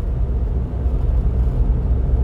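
Steady low rumble of a car being driven, continuous and fairly even throughout, with no talk over it.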